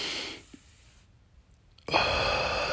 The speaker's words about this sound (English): Inhale.